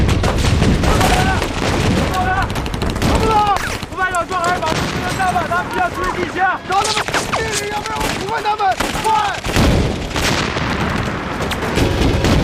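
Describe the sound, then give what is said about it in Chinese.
Artillery and gunfire bombard a mountain village in dense, continuous bursts and booms, a loud unbroken barrage with shouting voices carrying over it throughout. “集中火力，向山村开炮！”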